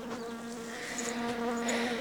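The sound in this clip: Bees buzz inside a hive set down on the ground, a continuous, faint, even drone with a steady hum that wavers slightly in intensity throughout.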